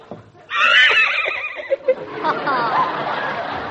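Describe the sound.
A horse neighs loudly in a long, shrill whinny, followed by a sustained, noisy rumble that carries through to the end.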